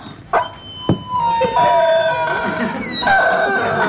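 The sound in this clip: A squeezed rubber toy chicken squawks in long, strained, wailing high tones after a couple of short knocks, the loud squeal sustained and wavering to the end.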